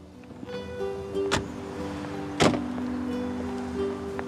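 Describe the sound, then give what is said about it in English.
Two car doors shut as a pair of people climb out of a car pulled up near a house: two sharp, separate thumps over a steady low hum. “the two of them get out of the car”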